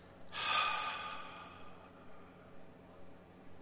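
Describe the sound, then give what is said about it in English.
A voice imitating the near-silent, breath-like sound of a dark sphere descending over a field: one soft, airy exhale that swells quickly, then thins out and fades into faint hiss. “They actually described it as like a breath. So really the only sound coming out of this was”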